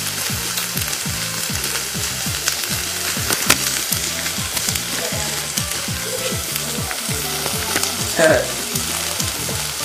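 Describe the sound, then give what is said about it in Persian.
Sizzling of apples frying in a pan as they are stirred, a steady hiss with a rapid, regular series of low scraping pulses running throughout. “تقریبا 4 بار باید سیب رو هم بزنید.”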